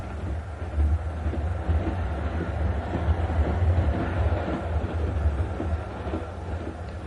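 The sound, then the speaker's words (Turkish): A train sound effect in an audio drama portrays a blue train bound for Nice. It is a steady, low rumble with a faint rattling texture, continuous throughout and without voices. “Böylelikle Bayan Gray de ayın 14'ünde Nice gidecek olan mavi trene biner ve orada Bayan Catherine ile tanışır.”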